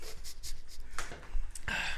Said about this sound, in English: All right, pens and paper. I gotta hold my mic and write at the same time.